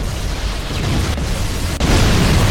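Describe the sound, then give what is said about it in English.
Life pods launching and being blown up in a video game: loud, continuous rumbling blasts forming a dense roar, with a sharp fresh burst near the end. “The life pods are launching. We should hurry. We watch the life pods launch and get blown up.”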